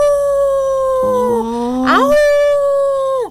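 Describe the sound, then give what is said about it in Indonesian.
A wolf howls in one long, loud tonal wail that dips, swoops upward near the middle, holds steady and then drops away at the end. “Baung kuwi uga dadi aran suarane serigala.”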